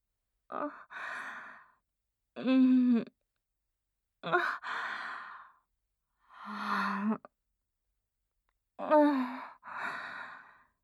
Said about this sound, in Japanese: 息を吸って吐いて、